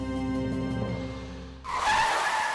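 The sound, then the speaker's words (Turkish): A car brakes hard on Continental summer tyres: a steady engine hum gives way to a loud, hissing tyre squeal that takes over for the final second. “Duracağın yeri bil. Kısa fren mesafesi Continental yaz lastiklerinde.”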